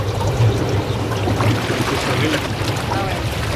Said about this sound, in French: Mais si c'est très chaud, il y a la piscine. Donc, ici, on peut... Le jacuzzi.